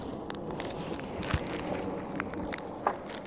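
Faint footsteps of a person walking outdoors, a soft, low, steady shuffle with a couple of slightly sharper scuffs, quiet throughout and with no talking.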